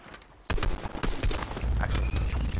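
Video game gunfire breaks in sharply after a quiet opening moment. Many rapid cracks and booms then follow in a dense, loud burst that continues to the end.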